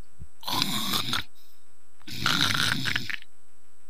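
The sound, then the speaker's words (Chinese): A human voice imitating loud snoring in a room, two long rasping snores separated by a pause, fairly faint and with no speech. “停了片刻，他摘耳朵一听， 屋里是鼾声如雷。”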